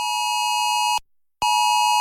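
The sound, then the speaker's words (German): A national emergency alert test tone sounds on a mobile phone in Luxembourg: a loud, steady, high electronic tone that cuts off for a brief silence, then resumes at the same pitch and level. No voices. “Am Montag führt Ello Alert einen nationalen Test der Sirene auf dem Handy durch. Nicht erschrecken.”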